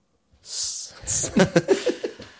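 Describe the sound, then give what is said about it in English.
A woman panting out of breath: a long, breathy exhale gives way to a quick run of several short, voiced pants in a steady rhythm, fairly loud and clear with no talk over it. “She's out of breath, and she pants.”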